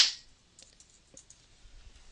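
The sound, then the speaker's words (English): Faint typing on a computer keyboard, with scattered soft, light clicks at irregular intervals over a quiet background. “And if you could stop typing, that'd be fantastic.”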